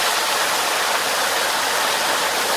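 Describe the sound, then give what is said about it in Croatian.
Rushing water drives the turning wheel of a small, old wooden water mill, a steady dense hiss that holds at an even level without distinct beats. “Mala drvena vodenica u blizini njene kuće najvjerovatnije je sagrađena 1911. godine, po čemu postoji i trag na jednoj od drvenih greda koje nose trošni krov. Vodenički točak i dalje radi po istom principu kao i kada je postavljen.”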